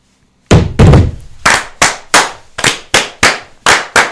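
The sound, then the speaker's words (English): Masonic fire, with lodge brethren clapping together in unison: a rhythmic series of sharp, loud claps, the first two closely paired and the rest spaced more evenly. “So, brethren, right hand to arms. To arms. Ready. Ready. Aim. Fire, good fire, fire all. Together, brothers.”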